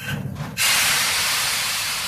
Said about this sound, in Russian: Маэстро, прошу вас в наш небесный поезд. Пора кончать с этим. Давайте выпустим пар.